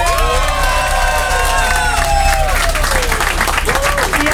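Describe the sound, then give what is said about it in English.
Studio audience cheering and applauding as a new team member is welcomed: loud, steady clapping under a dense layer of whoops and shouts that continues throughout. “Make some noise for Nina!”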